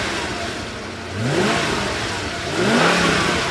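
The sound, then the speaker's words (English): A 6.75-litre twin-turbocharged V12 car engine revs in two loud bursts over a steady rumble, each rising in pitch, with no talk. “this baby comes standard with a 6.75-litre twin-turbocharged V12, 627 pound-foot of torque, and 563 horsepower”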